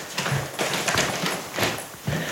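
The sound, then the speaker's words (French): Footsteps climb up to an attic room that is being converted, landing as a steady series of dull, hollow thuds on the stairs at an even walking pace. “Bah, on monte dans la pièce où j'ai enregistré, qui est un grenier que je suis en train d'aménager.”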